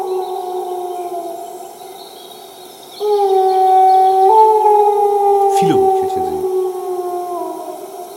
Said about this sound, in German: Wolf aus mittlerer Distanz.